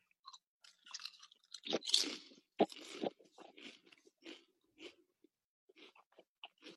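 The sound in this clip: Crunching and chewing of adobo-seasoned potatoes with vinegar and onion, a string of irregular crisp bites and mouth noises that are loud at first and then lighter and more scattered, with no talk.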